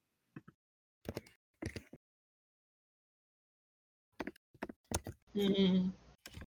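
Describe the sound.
Keyboard typing as someone looks up tabletop game rules mid-session: short clusters of clicky keystrokes, then a pause, then more rapid tapping, with a voice speaking briefly near the end.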